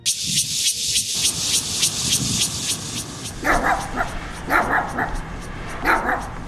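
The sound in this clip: A dog barks in the middle of the night: a rapid run of sharp yips and whimpers, then several louder, spaced barks, agitated and fairly loud throughout.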